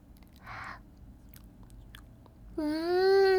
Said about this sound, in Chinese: 我们来切蛋糕吧，让我来尝尝弟弟做的蛋糕是什么味道的。